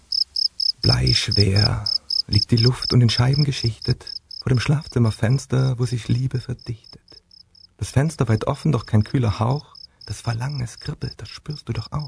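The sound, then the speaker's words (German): Continuous high-pitched cricket chirping runs steadily through the whole stretch, under a person speaking rhyming verse, and stays audible alone in the pauses between lines. “Und hörst du die Grille, die so romantisch zirpt?”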